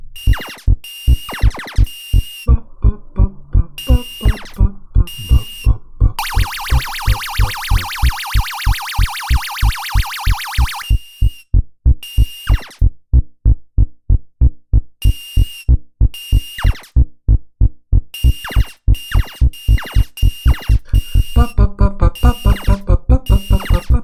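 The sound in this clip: Accelerating music from a 1978 video game: a looping bass pulse of repeated thumps that speeds up steadily. A sustained high warbling tone runs through the middle, and busier beeps fill the end.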